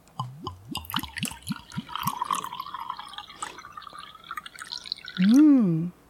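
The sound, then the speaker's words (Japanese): Chilled junmai ginjo sake, cooled to about 15 degrees, pours into a wine glass. A quick run of gurgling glugs is followed by softer trickling and splashing. “高品質の 純米吟醸酒ができました。今日は花冷え15度ぐらいに冷やしたものをワイングラスに注いでいきましょう。”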